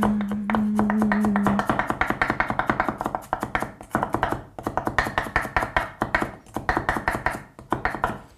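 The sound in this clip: Knife finely chopping raw onion for a spread, with many quick, steady strokes that are fairly loud and rhythmic with no talk.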